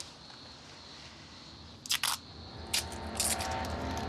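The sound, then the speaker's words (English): Tape is pulled off in a few short, crackly, tearing bursts against a quiet, hissy background. “I told you not to get burnt. Let's get this tape off.”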